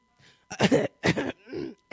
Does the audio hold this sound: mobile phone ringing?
no